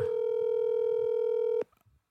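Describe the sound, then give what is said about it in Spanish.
A steady telephone tone from a call that is dialed but fails to connect, holding one pitch for about one and a half seconds before cutting off abruptly, followed by faint low noise. “pero ¿por qué no entra la llamada? Vamos a ver una vez más.”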